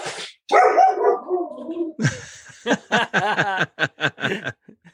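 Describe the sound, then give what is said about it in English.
Dogs barking in a lively burst, a long run of sharp, loud barks and yips that come in quick succession and then break into short clipped barks. “My dogs, man. They always have to be part of the show.”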